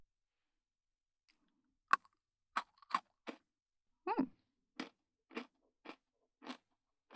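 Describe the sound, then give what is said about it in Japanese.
Crunching of chocolate-coated Pocky biscuit sticks: a series of about ten crisp, dry crunches, alone and fairly quiet, each a sharp crackly bite with short pauses between, coming steadily after a brief silence. “美味しいだけがポッキーじゃない、レッツポッキー ASMR。”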